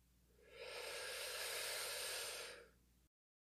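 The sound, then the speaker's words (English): A single long deep breath is drawn in during a relaxation exercise: a soft, airy hiss that swells and then fades, heard alone. “So let's go ahead and take another deep breath in.”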